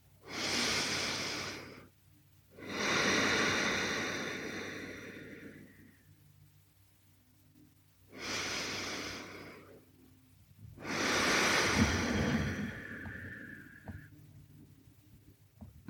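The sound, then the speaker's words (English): Slow, deep breaths during a guided breathing exercise, heard as four long, airy breath sounds alternating in and out. Each breath lasts a few seconds, with quiet pauses between them and no talk over them. “And bring your hands down to your belly, into your sides, and getting a nice complete breath in. 3 full breaths.”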